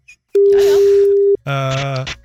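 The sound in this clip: A telephone tone sounds during a call-in to a radio contest: one loud, steady, unbroken tone lasting about a second. After a short gap, a brief voice follows.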